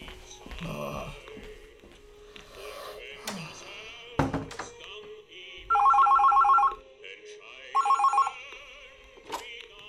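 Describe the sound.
A telephone rings in two bursts of bright, rapid bell trills with a short gap between them, after quieter clattering and shuffling sounds.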